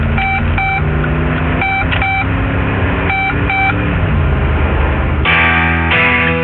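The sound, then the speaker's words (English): A 2012 Jeep Grand Cherokee's blind spot monitoring warning sounds as three pairs of short, bright, two-toned beeps, spaced a second or so apart over a dense, steady background. “when you drive a Jeep Grand Cherokee, you'll know there's someone in your blind spot the moment you hear.”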